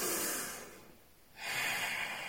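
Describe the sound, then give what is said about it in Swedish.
Deep breaths taken with eyes closed: two airy, breathy rushes separated by a short quiet pause, each fairly soft and broad, with no voices. “Det är bara att ni blundar och drar ett par djupa andetag.”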